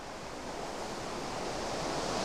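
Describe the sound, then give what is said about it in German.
Sea waves wash in a soft, steady rush of broad noise with no distinct breaks, fairly faint and swelling only slightly toward the end. “Das Meer beruhigt mich.”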